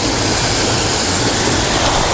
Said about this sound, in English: I'm going to get it now with this waterfall, because I am still making images for my next Strange Finder book